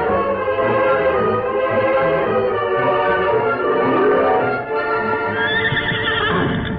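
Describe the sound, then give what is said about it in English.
A horse approaching under a rider, with loud clopping hoofbeats and whinnying throughout. A shrill high neigh stands out near the end, and no voices are heard. “Oh, here they come. I know it's Tonto riding alone.”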